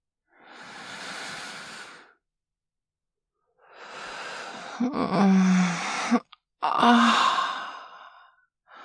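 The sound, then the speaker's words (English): Slow, deep breathing: several long, airy breaths drawn in and let out gradually, fairly quiet, with a soft voiced sigh in the middle stretch and no talk. “I'm going to breathe in deeply. And as I breathe out slowly”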